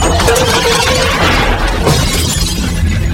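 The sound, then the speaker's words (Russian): Furniture breaks as a man falls onto it, giving a loud, dense crash and splintering clatter that fills about three seconds without pause. “Гриша, разбивая мебель, падает.”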